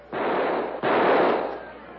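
Two rifle shots fire off the last cartridges, each a loud, sharp blast with a long rushing tail. The second comes under a second after the first.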